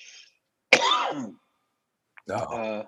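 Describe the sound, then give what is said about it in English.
A person coughing in two harsh bursts separated by a pause. The first is sharp at its onset and the second is rougher and slightly quieter. “And now I'm coughing.”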